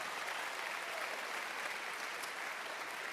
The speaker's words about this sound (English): Would you put your hands together and welcome them?